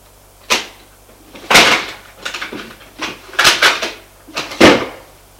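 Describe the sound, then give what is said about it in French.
A drawer of a chest of drawers is pulled open and a revolver taken out: a few sharp wooden knocks and sliding scrapes in irregular bursts, with no voices. “Ouvre le tiroir qui est dessus la commode et en tire un revolver.”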